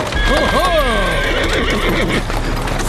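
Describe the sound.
The horse of a horse-drawn hired cab gives a loud, wavering whinny that falls in pitch. Clip-clop hoofbeats and street noise continue underneath.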